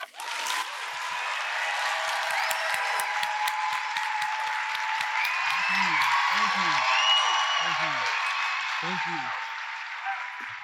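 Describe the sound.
An audience at RJ Julia bookstore applauds to welcome author Ta-Nehisi Coates with a loud, sustained roar of clapping lasting about ten seconds. It swells slightly in the middle, and a few short vocal cries rise over it.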